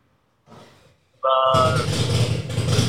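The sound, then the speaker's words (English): A motorcycle engine cranking up, breaking into a sudden loud, rough rumble partway through that keeps going to the end, with a brief voice sound just before it. “We have that bike cranking up in the background. We have a bike cranking up in the background I can sell you.”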